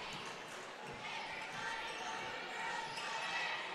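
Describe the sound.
A basketball is dribbled on the court during a girls' high school county tournament game between Handley and Wadley. Faint bounces sound under steady crowd noise and voices.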